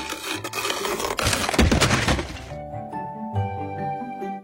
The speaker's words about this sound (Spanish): Con el paso de los días, el fruto maduró y se hizo cada vez más pesado, hasta que el cedro no pudo sostenerlo y su copa se quebró.